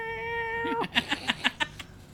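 Cats meowing insistently to be fed, first a drawn-out tonal meow that bends downward, then a quick run of several short, sharp meows in succession.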